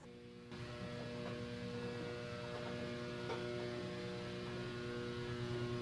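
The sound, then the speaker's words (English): A freight elevator runs with a steady low mechanical hum and tonal overtones. The hum steps up shortly after the start, then holds evenly and faintly, with no talk. “So we are naturally going into this freight elevator now.”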